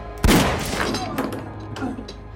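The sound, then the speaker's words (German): A single sharp gunshot is fired through a chipboard door. The loud crack hits early and is followed by a rough, fading decay. “Der Schuss hat die pressspan durchdrungen und den Mann, der direkt davor stand, auf Kniehöhe getroffen.”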